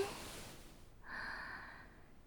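A slow inhale during a guided breathing exercise, a faint, airy draw of breath with a slightly hollow, whistly tone that begins about halfway through and holds steadily to the end.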